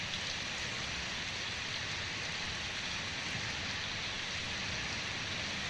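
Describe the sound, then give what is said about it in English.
Steady rain falls in a continuous, even hiss of dense drops, with no pauses or separate events across the whole stretch and no voices. “Here's what rain sounds like. And we're back to that beautiful rain we played at the beginning.”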